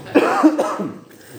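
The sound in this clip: A man coughs on purpose, giving two short, rough bursts that are loud and heard alone, with a throaty, throat-clearing edge.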